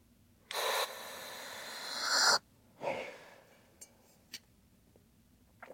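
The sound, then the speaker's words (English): A normal breath taken as a demonstration inhalation: a long, airy intake swelling louder over about two seconds, then a shorter soft breath and a few faint clicks. “And so it says you got to breathe normal. So I go with my normal breath and”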